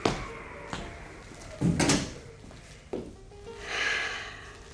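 A window is shut in a radio drama: a few soft knocks and a rattling thud, then a brief airy hiss, all quiet and without voices.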